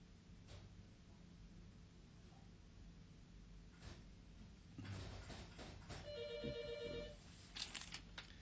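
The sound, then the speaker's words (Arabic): Faint electronic telephone ring: a short burst of warbling, stacked tones near the end, over steady low hiss. “التليفون”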